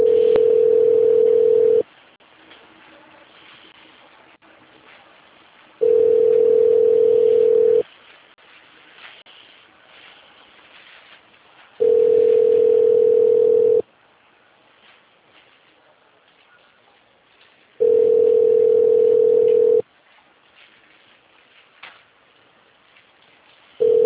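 Telephone ringback tone while a call is connecting: four steady, single-pitch beeps of about two seconds each, separated by longer silences, with a fifth just starting at the end. No voices are heard.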